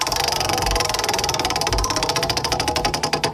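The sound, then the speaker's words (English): A prize wheel spins during a country music trivia giveaway, producing a rapid train of sharp ratcheting clicks that spread farther apart as the wheel slows toward the end. “you heard the prize wheel there”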